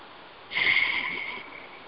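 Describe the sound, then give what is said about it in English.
A single deep breath, a soft airy rush of air that starts after half a second, swells briefly and then slowly fades over about a second against a quiet background. “And 3 nice deep breaths.”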